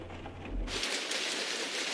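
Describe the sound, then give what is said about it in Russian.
Steady rain falling outdoors, a dense, even hiss that brightens and thickens abruptly early on, then holds loud and unchanging with no voices. “Дождь.”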